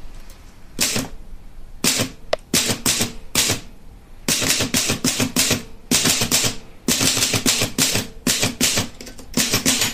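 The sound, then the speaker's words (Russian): Typewriter keys strike in fast, sharp mechanical clusters, loud rattling bursts of clacks separated by brief pauses, with no talk over them. “Тук-тук-тук-тук-тук. Простучала пишущая машина.”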